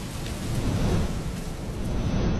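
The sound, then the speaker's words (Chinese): Heavy rain in a thunderstorm: a dense, steady roar of downpour with a deep low rumble running underneath throughout, loud and unbroken, with no voices. “雨好大，我们在大树底下躲会儿吧。”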